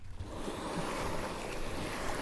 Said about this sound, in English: So sit back and vicariously enjoy a leisurely paddle via this little audio postcard.